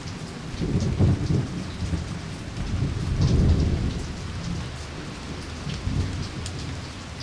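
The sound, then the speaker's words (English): Heavy rain pours outside a bar in South Florida as a dense, steady hiss. Low rumbling swells rise and fall beneath it, and no voices are heard. “there's a little bar across the screen that says, "South Florida Soaked," and, sure enough, it's cats and dogs outside.”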